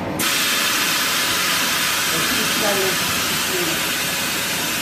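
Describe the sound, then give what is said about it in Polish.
A steady, loud hiss and rush from a Soviet-made frying machine with a heated oil tank, where a rotating drum drops food into a frying tub of oil at 160–180 degrees, running unbroken through the whole clip. “To jest maszyna radziecka, to znaczy Związku Radzieckiego, bo wtedy było ZSRR.”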